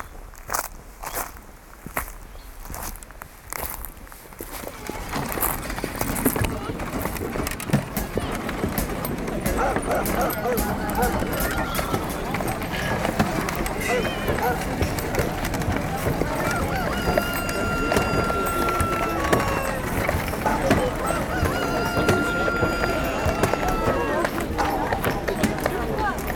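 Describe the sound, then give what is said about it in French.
Reconstructed soundscape of a medieval town with no engines and many animals: geese honk, hooves clip-clop and things crackle amid a constant, dense bustle of voices. The first few seconds are quieter before the scene fills in. “c'est un essai de reconstitution sonore d'une ville au Moyen-Âge, alors sans moteur bien sûr, avec quantité d'animaux notamment et autres bruits qui ne nous sont pas si familiers.”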